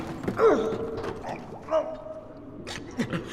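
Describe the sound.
A door creaks open in a few faint, drawn-out, wavering squeals, mixed with soft knocks and rustling.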